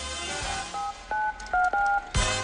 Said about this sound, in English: The executive dials a number on his cell phone.